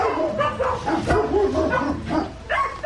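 Large dog barking during an animal rescue callout in Hungary: several yelping barks mixed with whining, tonal whimpers, fairly loud and irregular in rhythm.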